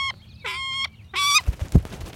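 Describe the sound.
Calls of a bird kept by a handler to guard vineyard grapes: three harsh, high, honking cries in quick succession, followed by a few soft low thumps.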